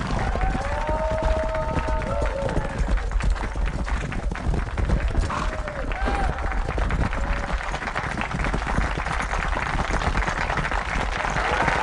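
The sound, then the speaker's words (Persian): A crowd applauds at an outdoor ceremony honoring horses and their handlers with farmers, ranchers and border patrol officers. Dense, continuous clapping runs at an even loudness from start to finish. “پس لطفا افرادم رو تشویق کنید، به احترامشون بایستید.”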